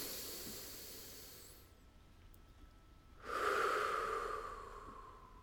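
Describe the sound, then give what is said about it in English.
A deep breath taken during a guided mindfulness exercise: a soft, airy rush of breath fades out, and after a short pause a second, louder breathy whoosh swells and slowly trails off. The sound is quiet throughout, with no talking. “Take a deep breath.”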